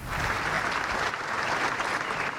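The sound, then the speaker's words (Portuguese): Long, sustained applause from hundreds of people gathered in the Alfândega courtyard for the flag lowering that closed the Dia de Portugal commemorations on 10 June. Dense, steady clapping holds at an even level throughout, with no voices. “António José Seguro chegou a pé para encerrar as comemorações do Dia de Portugal. Foi recebido com um longo aplauso das centenas de pessoas que foram até ao pátio da Alfândega para o arriar da bandeira.”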